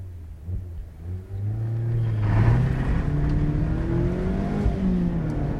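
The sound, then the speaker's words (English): Engine of a 2-litre ND Mazda MX-5 sports car in SE-L Nav trim under acceleration: a low rumble whose pitch climbs steadily, then eases slightly near the end, with no talk over it. “So this is the Mark IV, or the ND Mazda MX-5, here in 2-litre format.”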